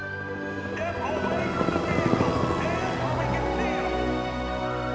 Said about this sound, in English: A police helicopter crosses overhead.